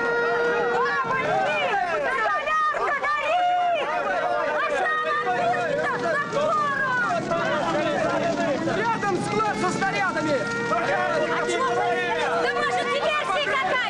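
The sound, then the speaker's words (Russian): Workers shout and hurry to put out a burning roof: many overlapping raised voices and calls continue throughout, forming a loud, busy crowd din. “Рабочие бегут тушить горящую крышу.”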